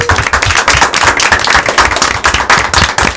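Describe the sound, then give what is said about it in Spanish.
Loud, dense applause from an audience at the close of an event with guests from London, steady rapid clapping that holds throughout with no clear voices. “vamos a acabar con un fuerte aplauso a todos nuestros amigos de Londres”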